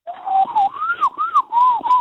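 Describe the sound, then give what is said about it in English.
A person whistles an imitation of a magpie call: a clear, loud warbling line broken into several short phrases that rise and fall in pitch, with no talking. “ones for magpie and stuff. I do a lot of bird calls.”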